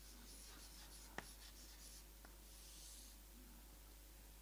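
Faint scratchy strokes of writing on a board during a lecture, a soft steady scraping with one sharp tap near the start and a lighter one later, heard alone without talk.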